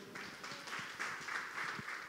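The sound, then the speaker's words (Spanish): Faint audience applause during a Spanish-language church service, many hands clapping in soft, pulsing bursts that recur in a loose rhythm over about two seconds. “Gracias a nuestro hermano Nestalí. Un aplauso al Señor.”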